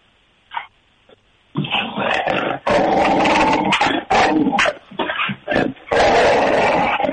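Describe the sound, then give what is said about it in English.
Dogs barking and growling heard over a speakerphone line, a brief yelp first, then dense, loud barking and snarling in many overlapping bursts that carry on almost without pause. “will they all start barking? Oh yeah, we can get them going.”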